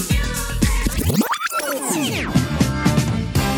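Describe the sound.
A 1970s disco ballroom anthem plays with a lush, layered groove, broken midway by a sweeping slide that rises and then falls before the rhythmic pulse returns.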